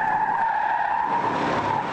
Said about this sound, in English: In the video, cars without ESC spin out of control, while cars with the technology swerve slightly and right themselves quickly.